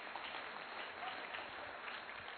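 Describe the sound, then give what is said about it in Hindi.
Audience applause after a dance-drama performance: a steady, dense wash of clapping at fairly low level that holds evenly throughout without a clear start or stop. “इसके जोर से ताली बजाएं।”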